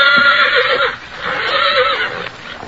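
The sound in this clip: A colt with an injured, nearly healed leg neighs in a couple of loud, shrill whinnies, each wavering in pitch, with a quieter gap between them.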